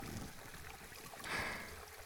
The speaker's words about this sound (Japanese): 足湯と耳かきが気持ちいいだけじゃなくて、絶え間なく流れる温泉の音もお耳に心地よく響いてるね。